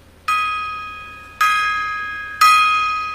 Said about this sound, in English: Bang the gong, get it on.